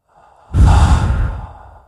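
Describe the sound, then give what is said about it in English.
A big, deep exhale after a held breath, taken as a calming breath during a game. A faint intake comes first, then a loud, breathy rush of air that fades out over about a second. “That was a big breath.”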